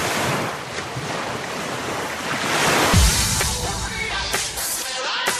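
Sea waves wash onto a beach in a steady surf, with heavy wind buffeting the microphone and a dull low thump near the middle.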